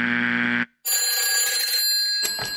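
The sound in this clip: A telephone rings. A short, loud, buzzy electronic tone is followed by a brief gap, then a bright, high, steady ring that ends in a jumble of softer noise.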